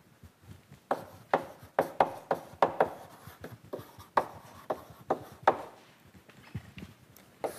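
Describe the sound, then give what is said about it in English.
A lecturer writes out an integral on a board during a calculus lecture. Many sharp, irregular taps and scrapes are faint but distinct, with quiet gaps between strokes. “Let's write that down.”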